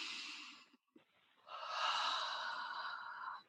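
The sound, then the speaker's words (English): A person takes a deep breath in and out: a short airy rush, a brief pause, then a longer, steady breathy stream. It is soft and heard alone. “Let's take a deep breath in and out.”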